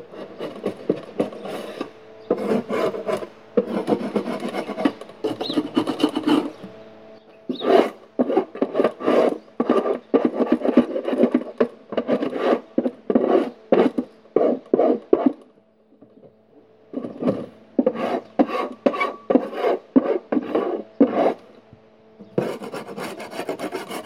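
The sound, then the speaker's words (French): Rasping scrapes as wooden beehives and smaller nucleus hive boxes are scraped clean: many rhythmic strokes in steady bursts, broken by two short pauses, with no talk. “Nettoyage des ruches, des ruchettes. On gratte et on flambe.”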